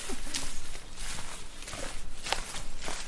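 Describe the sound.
Footsteps walk from a quiet road into mixed woods: many steady, crunching steps in an even rhythm, with no pause between them.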